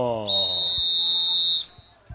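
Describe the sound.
A referee's whistle at a football match, blown to end the first half: one long, steady, high-pitched blast. A voice is heard briefly at the start, and a few faint thumps follow.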